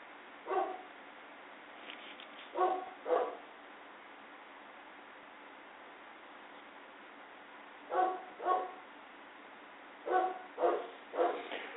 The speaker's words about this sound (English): That was the dog barking, so it's nothing to be alarmed about.